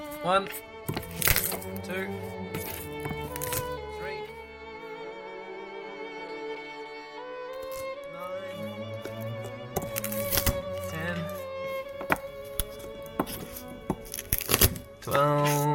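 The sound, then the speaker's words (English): Food with its stalks trimmed off is crushed under a wooden spoon, giving a series of sharp cracks and soft squashing thuds at an uneven pace, with a person talking in between. “Alright, all the stalky bits are cut off. Now I'm gonna start crushing them under my wooden spoon.”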